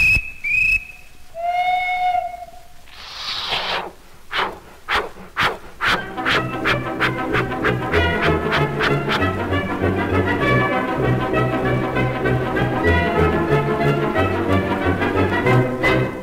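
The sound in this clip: A dance orchestra's comic railway medley imitates a train departing: high whistle toots, a burst of steam hiss, then chuffing beats that speed up and lead into lively band music.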